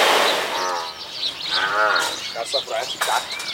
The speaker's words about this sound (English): about 100 buffalo snuffling clouds of breath into the chilly morning air